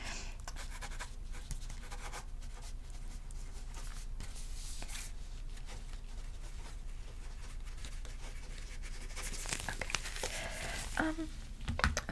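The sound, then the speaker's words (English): A pen scratches notes onto paper during a mock medical exam, with soft, continuous strokes and brief scrapes that run quietly throughout. “Let me just write a couple things down.”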